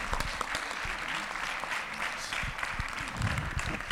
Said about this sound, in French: Voilà, on peut réapplaudir la troupe qui vient s'installer à notre plateau radio de BPM.